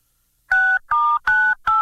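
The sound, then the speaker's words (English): Telephone keypad dialing tones on a conference call: four loud, clean beeps, each about a quarter second long, evenly spaced with nothing else under them. “I can hear you dialing.”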